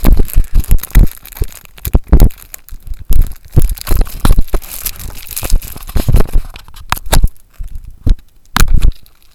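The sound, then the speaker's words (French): Plastic film crinkles and tears as it is unwrapped from a card game box. Many irregular, loud crackling bursts run continuously, with no talk. “vous m'excusez, hein, je suis un peu perdu dans le film plastique.”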